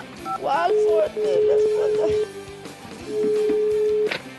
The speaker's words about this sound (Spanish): Y vamos a llamar al Instituto Milford para que termine su investigación.